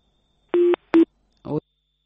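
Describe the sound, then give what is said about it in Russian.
Telephone busy tone after a dropped phone call: two short, steady electronic beeps, followed by a brief burst of garbled sound. “у нас сорвался звонок, но сейчас мы попробуем его восстановить”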